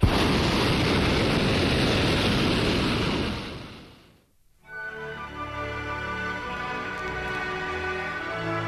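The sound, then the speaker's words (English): Hot air balloon propane burner blasting in a loud, broad roar for about four seconds, cutting off abruptly into a brief lull before a steadier, lower rumbling hum resumes. “Conversation aloft is punctuated by blasts from the burner,”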